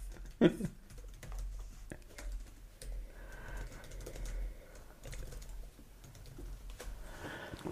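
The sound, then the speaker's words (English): Someone types on a computer keyboard to write something down, producing quiet, irregular key taps with a louder click near the start. “Let me write this down.”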